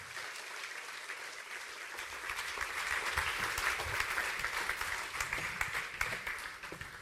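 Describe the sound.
Church audience applause welcoming a preacher: dense, steady clapping that swells after a brief start and holds strong, with a few louder individual claps standing out near the end.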